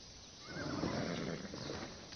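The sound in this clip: A horse whinnies once in a fairly faint call that lasts about two seconds over a steady background hiss.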